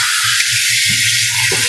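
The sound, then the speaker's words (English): Running water from a kitchen sink tap while a cup is washed by hand: a steady, even rush of water noise throughout, with a brief knock near the start and faint low handling sounds underneath. “I'm going to put this cup in the sink because I don't need it anymore. And just washing up here.”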